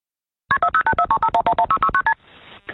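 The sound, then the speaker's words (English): Touch-tone dialing beeps from a 911 emergency call: a rapid, evenly spaced run of many short dual-tone keypad beeps, followed by a faint hiss on the open line. “Yesterday, the jury and the public heard that chilling 911 call for the first time.”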